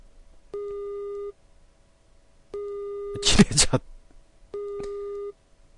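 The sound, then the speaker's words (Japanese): Telephone busy tone heard after a mobile phone call is cut off: three long, steady mid-pitched beeps at even intervals, with a short, loud, noisy burst between the second and third. “切れた。表示はまだ圏外に戻っている。”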